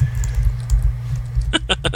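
Typing on a computer keyboard: five quick, sharp keystroke clicks arrive near the end over a low, steady rumble.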